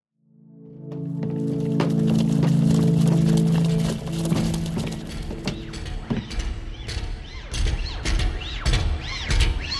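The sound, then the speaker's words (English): An antique killing machine moving in an audio drama: a loud, droning mechanical hum gives way to busy clanking, creaking and ratcheting metal sounds that continue to the end. “Hello, unidentified passengers. Please hold and provide identification. An antique killing machine.”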